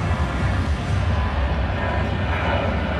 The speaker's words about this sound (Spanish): Mira el otro avión, Quiñones, míralo, usted lo puede sentir, escúchelo.